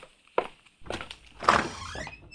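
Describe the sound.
A door being opened: a sharp thump, then a stretch of rattling and scraping, rising to a louder clunk and clatter before settling into a lower rustle, all at moderate volume with no voices.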